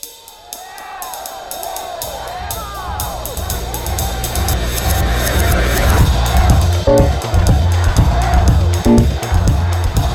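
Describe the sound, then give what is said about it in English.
Noise of a rioting crowd during violent unrest: a dense roar of many shouting voices builds steadily and stays loud throughout, over a low rumbling bed. “More often than not, constitutional changes sound like this: rioting, violence, revolutions.”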